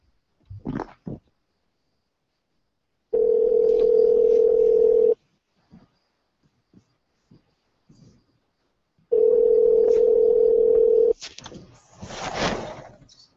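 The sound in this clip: A telephone call is placed and rings out. Two long, steady ringback tones are separated by a silent gap, with brief voices before and after.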